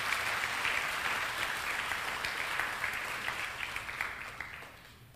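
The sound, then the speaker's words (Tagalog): A church audience applauds God, a dense, steady patter of clapping hands that thins slightly at the end. “Pwede ba palakpakan natin ang Panginoon sa kanyang kabutihan?”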